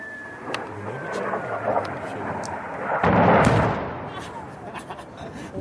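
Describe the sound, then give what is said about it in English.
An airstrike explosion in northern Syria: a broad, rumbling blast swells midway through a continuous rough, noisy roar. “A Kurdish video posted online appears to show an airstrike by the U.S.-led anti-ISIS coalition, targeting militants in northern Syria”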